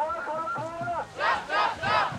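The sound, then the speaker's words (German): Protesters near Lützerath chanting slogans in unison, many voices in a rhythmic call that ends in three loud shouted bursts. “Die Sprechchöre können sie alle auswendig. Gib mir ein R, gib mir ein W,”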